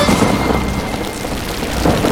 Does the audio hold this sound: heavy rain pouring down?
yes